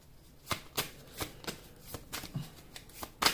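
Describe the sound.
Tarot cards are shuffled and drawn in many crisp, papery riffles and snaps. The rhythm is uneven, and no one talks over them.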